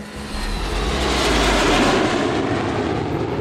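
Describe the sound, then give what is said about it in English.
Airplane taking off on a runway at about 180 miles per hour, a loud, broad, steady engine roar with a deep rumble that swells slightly and holds for a few seconds with no voices. “Don't you love that adrenaline rush on the runway? You're hitting up to 180 miles per hour when you take off.”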